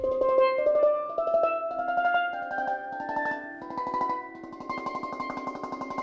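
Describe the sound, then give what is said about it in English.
A steel pan plays a scale one octave higher to show the register shift. Bright rolled notes with rapid tremolo strikes climb steadily in pitch, moderately loud and ringing. “Now I'm gonna play another octave up so you can hear the register shift.”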